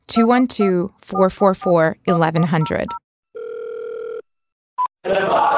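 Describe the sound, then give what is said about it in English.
A telephone dial tone is heard before dialing a Hasidic news hotline. A voice talks first, then a steady tone holds for about a second, a brief keypad beep follows, and a burst of line noise starts. “What if you want to hear a kosher version of the things you'd hear on the radio? Well, you just dial this number,”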